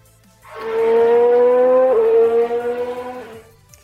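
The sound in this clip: A radio show jingle plays as one loud, buzzy, harmonic-rich tone held for about three seconds, stepping slightly in pitch midway and wavering before it cuts off.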